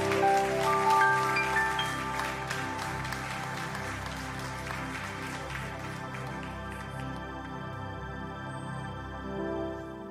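A church audience applauds to welcome visiting missionaries during a service: a dense patter of clapping over steady held tones, thinning gradually.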